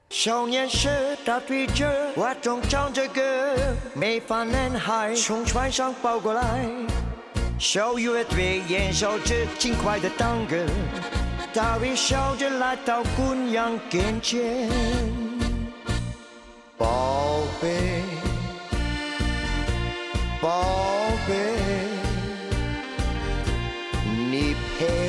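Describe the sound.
Chinese-language cover of a Belgian tango pop hit, with a voice singing over a dense band and a steady driving beat. The music drops out for a brief break partway through, then resumes at full loudness.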